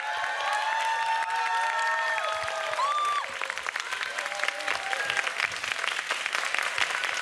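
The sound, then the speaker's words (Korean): Concert audience cheering and applauding, a dense continuous roar of clapping and crowd noise, with a few high shouts and whoops rising above it early on. “약간 소리 질러도 되는 바이브인가요, 여기? 셔츠 위에서 소리 한번 질러주세요.”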